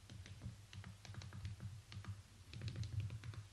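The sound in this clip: Text typed on a mobile device keypad, faint clicking of many quick, irregular key presses in a steady run with no voices.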